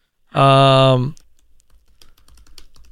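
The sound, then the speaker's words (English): Typing on a computer keyboard to search for history-related jobs: many light, quick clicks in an irregular patter fill the second half, after a louder sustained harmonic tone at the start. “Let's see what happens when I type in jobs that have to do with history.”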